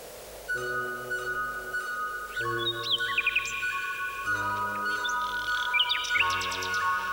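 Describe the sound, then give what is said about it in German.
Nightingales singing in the evening, about half a dozen birds: bright chirps and quick trills come in a few bursts over a steady, sustained harmonic drone. “Ethel Smith, unsere gemeinsame Komponistenfreundin, kam, um die Nachtigallen zu hören. Mindestens ein halbes Dutzend Nachtigallen waren da.”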